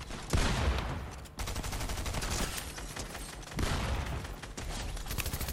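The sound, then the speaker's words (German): Rapid automatic gunfire sprayed through a wall in a video game, a dense, loud stream of many quick shots that runs almost without pause, with a couple of brief gaps where the firing resets. “Er schießt mich durch die Wand. Irgendwie sprayt er mich durch die Wand zu.”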